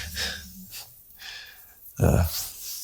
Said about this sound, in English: Please close your eyes and take a deep breath and meditate for 30 seconds.